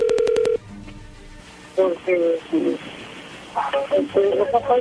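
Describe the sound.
Touch-tone telephone dialing as a number is entered: a quick run of short, even beeps over a steady tone, then a pause and a voice talking.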